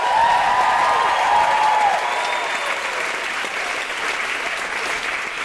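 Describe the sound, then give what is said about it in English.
An audience applauds in a dense, steady wash of clapping that stays loud throughout and eases slightly after the first couple of seconds. “Put your hands together and make general woohooing noises for the wonderful Carl Wilson!”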